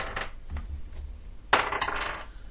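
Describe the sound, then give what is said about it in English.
Dice rolled on a table during a tabletop game: a sharp clatter about midway, then a brief rattle of small hard clicks, faint over a low background. “Come on, dice. Pull through.”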